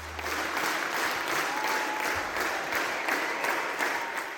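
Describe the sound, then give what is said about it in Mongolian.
Audience applause in a Sydney theatre after the full Mongolian morin khuur ensemble's first performance there: dense, even, sustained clapping that holds steady throughout. “Энэ бол Сиднейн дүүрийн театрт Монголын морин хуурийн чуулга бүрэн бүрэлдэхүүн нэрэ анх удаа тоглоход нийт үзэгчдийн илэрхийлж байгаа сэтгэл хөдлөл.”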